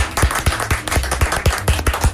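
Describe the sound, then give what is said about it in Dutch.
An audience claps in unison at a concert, sharp hand claps landing on a steady, quick beat about four times a second, loud and even, with no voices over them. “We gaan nog één keer van de klappen, mensen.”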